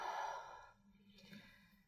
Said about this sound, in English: Exhale, full breath out.